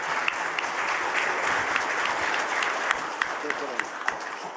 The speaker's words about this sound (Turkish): İki ülke heyetleri de ayakta alkışladı.